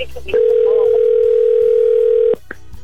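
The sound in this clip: Ringing tone of an outgoing telephone call: one loud, steady, even tone lasting about two seconds, with faint low background sounds before and after it.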